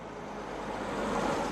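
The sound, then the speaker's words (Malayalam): A car arriving, heard as a steady, broad engine and road rumble that swells gradually louder over a second and a half, with no voices. “അല്ല, ഇതെന്താ ഈ സമയത്തൊരു car?”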